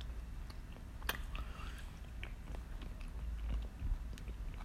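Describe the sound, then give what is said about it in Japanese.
Faint chewing of squid tentacles (geso): soft, moist mouth sounds with a few brief crunchy bites, quiet throughout. “いやゲソうまいうん”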